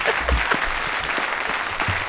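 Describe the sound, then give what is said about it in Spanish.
Audience applause welcomes the panel guests of a talk show: a full, continuous patter of many hands at a steady level, with a few low thumps mixed in. “Un aplauso para nuestros contertulios, por favor.”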